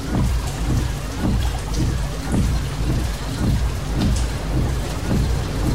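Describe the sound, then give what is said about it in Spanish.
Rain pours at night, heard from inside a car, a loud dense steady patter with low rumbling swells recurring throughout and no voices. “Es de noche y llueve.”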